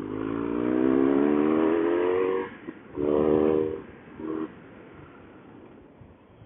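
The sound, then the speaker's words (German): A car engine revs as the car climbs a mountain pass. Its droning tone rises steadily, then breaks off, and two shorter bursts of acceleration follow after brief pauses. “So, jetzt fahren wir mal diesen Pass.”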